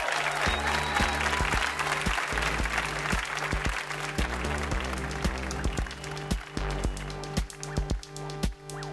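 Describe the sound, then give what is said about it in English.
Enthusiastic audience applause rings out for a guest on a live trivia game show stage, dense and loud clapping that holds steady before thinning into scattered claps toward the end. “Big hand for Jad Abumrad.”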